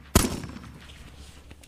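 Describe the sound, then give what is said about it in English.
A single pistol shot cracks out, one sharp, loud report followed by a quickly fading rumbling tail. “taking a long black pistol from his other boot, he shot her through the heart.”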